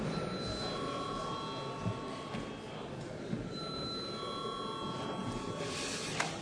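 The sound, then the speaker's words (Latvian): A parliament bell rings before a vote, electric ringing heard as steady, high sustained tones in two stretches over a continuous murmur of chamber noise. “Jā, paldies, lūdzu zvanu.”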